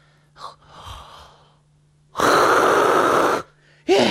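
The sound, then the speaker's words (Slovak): A deep breath is drawn in as a loud, breathy rush lasting a little over a second. Softer breathy sounds come before it, and a short, strong burst of breath follows. “Najprv sa treba poriadne nadýchnuť.”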